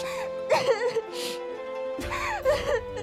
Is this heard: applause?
no